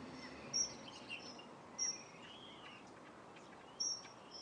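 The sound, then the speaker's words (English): Morning birdsong: a few short, high chirps stand out faintly against a steady low background hiss, spaced irregularly with quiet gaps between them. “And surrounded this morning with birdsong. It's great.”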